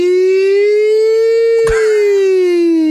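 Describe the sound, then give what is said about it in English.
A voice imitates an emergency vehicle siren, ambulance or fire engine style: one loud, sustained wailing tone that slowly rises and then falls back, with a brief knock partway through. “I don't know what the difference is between an ambulance siren and a firefighter siren.”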